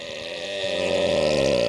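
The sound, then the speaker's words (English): A long, drawn-out belch, loud and continuous with a low, rasping, gurgling tone that swells slightly and holds steady to the end, with no talk over it. “There was two burps. How did you do that? That was weird. There was two of them.”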